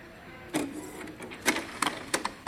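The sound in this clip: A printer prints a job, giving a few sharp mechanical clacks and brief whirring bursts at irregular intervals over a low background hum.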